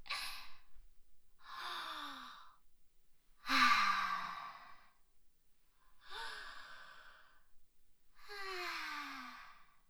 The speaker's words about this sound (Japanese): ちょっと深呼吸する。